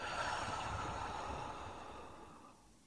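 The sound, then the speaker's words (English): A slow breath during a guided relaxation exercise, in through the nose and out through the mouth, heard as a soft, continuous airy hiss that gradually fades toward the end. “Let's take a breath in through the nose and let it out the mouth.”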